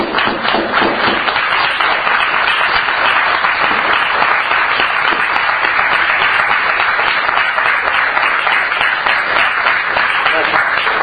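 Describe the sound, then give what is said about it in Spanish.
An audience gives a loud, sustained round of applause at a tribute, dense continuous clapping that holds steady for the whole stretch. “felicitar a Francisco Pillado, darle un aplauso grande”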